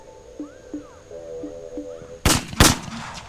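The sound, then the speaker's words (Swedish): Two sharp gunshots ring out in a Compton neighborhood. The loud, closely spaced cracks come after a few seconds of quieter, faint tonal sound. “Plötsligt hör Serena ett ljud. Pappa Richard lugnar flickorna och säger att tjejerna inte ska bry sig. Serena är för liten för att förstå, men det som hörs är ljudet från skottlossningar.”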